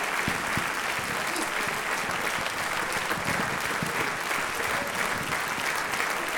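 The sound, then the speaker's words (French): Audience applauding solo performers in a hall: steady, dense clapping from many hands that holds at an even level throughout. “On peut les applaudir très très fort, c'est pas évident de jouer toujours en solo dans une salle.”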